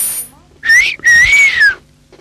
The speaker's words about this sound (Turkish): bir ıslık çaldı.